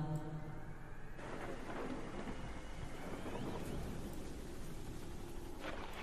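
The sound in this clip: Heavy rain pours down in a thunderstorm, drumming hard on a house roof. The loud, constant wash of water carries deep thunder rumbling underneath, with no voices.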